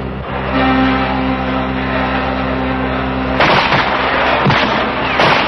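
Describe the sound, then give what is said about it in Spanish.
Gunfire after flares light the sky: a few sharp, loud bangs break in over the last two seconds, following a steady low droning background. “Están disparando, mamá.”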